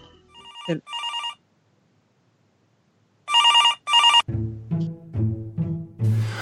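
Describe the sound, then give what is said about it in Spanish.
A telephone rings with an incoming call, its bright electronic bell sounding in two pairs of short bursts separated by a quiet gap, loud and clear with no talk over it. “Me dicen que hay una llamada.”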